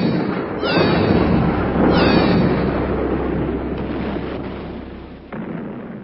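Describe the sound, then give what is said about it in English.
Spaceship cannons fire on a planet with two heavy, booming blasts about a second apart, trailed by a long, dense rumbling roar that slowly fades and then surges again briefly near the end. “Arm Criston cannons. Full destructive force. Prepare to fire on the Opergian homeworld. Fire!”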